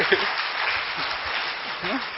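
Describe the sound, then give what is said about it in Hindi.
An audience claps for a doctor, a dense patter of applause at moderate level that runs steadily throughout, with a few voices faintly audible over it. “ताली बजा दो doctor साहब के लिए।”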